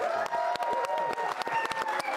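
A studio audience applauds two basketball coaches, father and son: fairly faint, steady clapping with many sharp individual claps scattered throughout.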